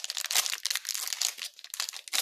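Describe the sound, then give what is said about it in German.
Crinkling and tearing of a trading card pack wrapper being opened, heard as many quick, bright crackles and rustles at moderate volume, with no voices. “Komm, wir öffnen auch noch den anderen, das andere Pack, damit wir so alle vergleichen können.”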